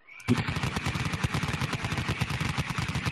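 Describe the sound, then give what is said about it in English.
Rapid Gatling gun fire as a sound effect: a dense, continuous stream of loud shots that keeps going for about three seconds, with no talk. “I just need to spin up the old Gatling gun.”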